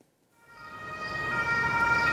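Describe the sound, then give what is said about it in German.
An ambulance siren swells from silence as the vehicle pulls up to a hospital emergency department in Sömmerda, Germany. Its high, steady tonal wail grows steadily louder over about two seconds. “Es ist der dritte Rettungswagen in 30 Minuten, der vor die Notaufnahme des Krankenhauses in Sömmerda fährt.”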